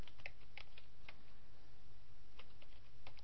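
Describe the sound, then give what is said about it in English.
Rapid typing on a computer keyboard as a search query is entered, many quick, irregular keystrokes clicking softly over a steady low hum. “And what you do is simply enter a question into the search bar here. Let's say”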